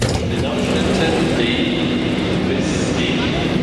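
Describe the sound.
Loud, steady rumble and hum inside a train carriage as someone moves toward the front section of the train, a dense continuous roar with faint higher whines drifting over it.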